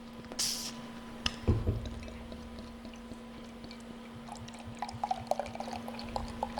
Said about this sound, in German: Soll eine hellgoldene Farbe haben und einen schönen Hopfen-Hefe-Aroma. 4,8% Alkohol. Es ist eine große Flasche, dass wir beide auch was davon haben. Und es klingt so.